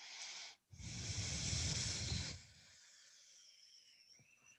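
A long, forceful breath out during a yoga forward bend, a broad airy hiss lasting over a second after a brief opening puff, then giving way to faint, thin whistling tones.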